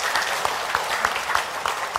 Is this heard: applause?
yes